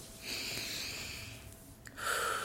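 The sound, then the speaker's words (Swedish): A deep breath taken during a guided mindful-eating exercise, a soft, airy rush of breathing, faint and alone. “Och så tar du ett djupt andetag.”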